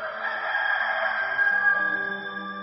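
A rooster crows in one loud, drawn-out call that holds a bright, strained tone from start to finish, heard alone.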